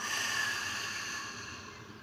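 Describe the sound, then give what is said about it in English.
A long, audible exhale in a guided breathing practice: one steady, breathy rush of air that fades gently, with no talk. “Exhale fully and audibly, let it all go.”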